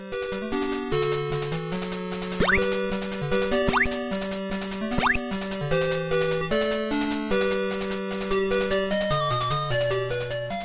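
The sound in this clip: Music and effects from the video game Rampage: a steady, buzzy electronic melody running throughout, cut by three quick upward-sweeping zaps.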